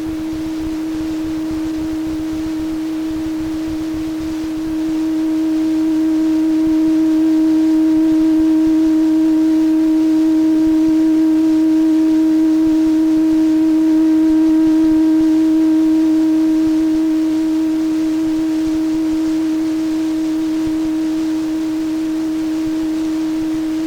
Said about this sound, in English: If we put the same tone in the other ear, the sound is equal, like this.